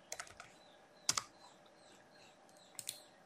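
Faint computer keyboard typing while renaming 3D models: a few small clusters of light key clicks spaced across a quiet background, with no voices.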